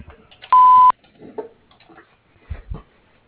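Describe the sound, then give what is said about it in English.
A voicemail tone before message recording: one steady, mid-pitched electronic beep lasting under half a second, followed by faint rustling and two soft, low thumps. “Record your message after the tone.”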